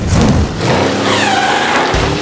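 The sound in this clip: Car engine revving and accelerating, a loud, continuous engine roar whose tone climbs in pitch as the car speeds up.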